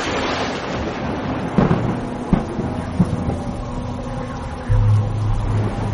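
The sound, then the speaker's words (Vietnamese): Heavy rain pours down in a storm as a steady, dense hiss throughout. A few brief knocks sound in the middle, and a deeper low rumble joins near the end. “Nước mưa ồ ạt từng cơn dữ dội, làm ướt hết cả sàn.”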